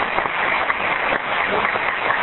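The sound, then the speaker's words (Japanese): Audience applause at a talk: dense, steady clapping from many hands that holds an even level from start to finish. “イエーイ、拍手してください。”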